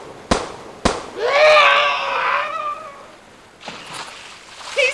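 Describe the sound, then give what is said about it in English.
Two sharp gunshots in a radio drama crack in quick succession. A long, high, wavering cry follows, and then quieter movement. “You shot him! You shot him! Those shots, my dear, never touched him.”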